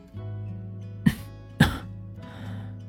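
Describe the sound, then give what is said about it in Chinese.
Light coughing from a man after smoking a cigarette: two brief, sharp throat coughs a half-second apart over a faint low hum. “他抽了两口烟，很轻地咳嗽了一声。”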